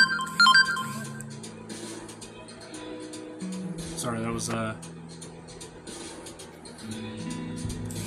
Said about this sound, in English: I don't know if anybody heard that. That was my phone going off message-wise.